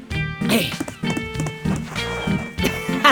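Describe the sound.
Running footsteps across beach sand toward the sea, a quick, rhythmic patter of steps that continues throughout over a steady musical backing.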